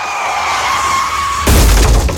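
Car crash sound effect: a high tyre screech with a slightly falling pitch runs for about one and a half seconds, then cuts into a loud crash of impact and shattering that rings on to the end.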